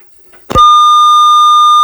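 A phone call cut off, followed by a disconnect tone: a short thump, then a loud, steady, high beep that holds unbroken to the end.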